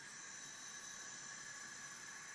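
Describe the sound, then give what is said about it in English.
Fire burning beneath a pot of water gives a steady, even hiss with a soft rushing texture. It holds at a constant level throughout, with no talk over it. “That's the new sound. That's the sound of the fire underneath the pot.”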